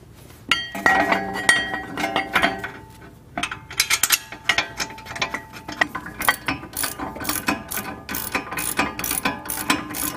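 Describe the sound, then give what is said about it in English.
Ratchet wrench clicking rapidly in repeated bursts while reinstalling a car's brake caliper bracket over a new rotor, with sharp metallic clinks mixed in and no talking. “Put on your new rotor and then reinstall your caliper bracket.”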